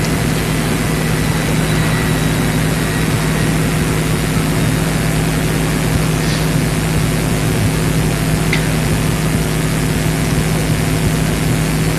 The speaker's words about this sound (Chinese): 等飞机过去了